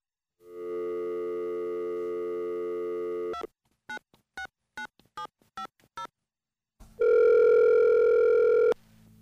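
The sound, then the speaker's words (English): Telephone dial tone while dialing out to a caller: a steady hum-like tone, then six short, evenly spaced key beeps after a pause, followed by one longer, louder tone. No voices. “Let me see if we can dial out.”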